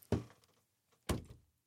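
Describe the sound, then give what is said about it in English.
A beer stein slammed down on a table: two heavy, dull thuds about a second apart, each with a short ringing tail, fairly faint overall. “That was the sound of my beer stein hitting the table.”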